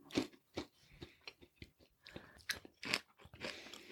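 Someone crunches and chews a smoky chickpea snack: many irregular, crisp bites and chews, faint and uneven in rhythm, with no talk over them.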